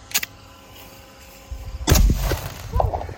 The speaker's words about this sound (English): this is a dragon's breath out of a 410 Henry lever action that burns at 5,000 degrees, and we're going to light this thing up.